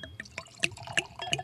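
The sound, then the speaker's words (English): Old wine, from a bottle with an unknown cork, is poured into a glass. Several short, irregular glugs and splashy gurgles follow one another in quick succession, fairly soft overall. “now whatever's in this bottle, and I'm about to pour it in here”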